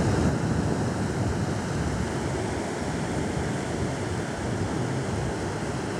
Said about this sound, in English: That is the sound of the waves crashing on the beach.